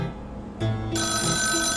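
A mobile phone rings in a movie theater just before the film starts. Its steady electronic ringtone begins after a brief pause, then a brighter, higher layer joins. The ringing sounds alone, with no talking.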